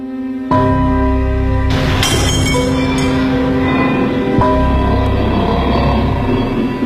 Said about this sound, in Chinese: 山城的第一天，毛泽东就失手打碎了一只盖碗茶杯。